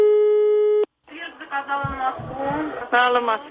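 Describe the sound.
A telephone line tone sounds after a number is dialed: a steady, buzzing tone with stacked harmonics holds for under a second and cuts off sharply. After a brief pause, voices talk over the line.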